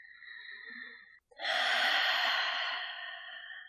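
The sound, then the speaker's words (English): A deep breath is taken during a guided breathing exercise: a soft, airy breath, a brief pause, then a longer, louder rush of breath, all quiet and with no talking. “take a deep breath now.”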